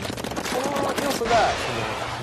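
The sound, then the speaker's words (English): Ink guns firing in a video game played with a gamepad, a dense run of rapid, wet, splattering shots that stays steady and fairly loud throughout. “Your enemies are shooting ink as well. With regular guns, you can't really see bullets flying by.”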